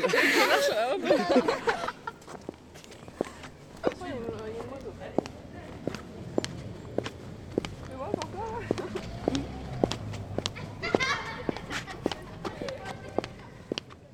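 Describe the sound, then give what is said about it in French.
Sneakers walk on a road, each step a crisp tap in a regular, steady pace that runs throughout. A voice is heard at the start, and a few other faint sounds come in between the steps. “est-ce que tu peux marcher sur la route pour qu'on entende les bruits de basket?”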